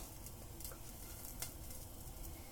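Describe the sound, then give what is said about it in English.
Oil sizzling in a heated pan while cooking, a faint, steady crackling hiss that continues without pause. “that all heated. I'm gonna put some oil down.”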